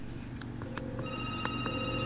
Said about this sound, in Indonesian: Ini malah WhatsAppnya ditelepon dulu ya nih.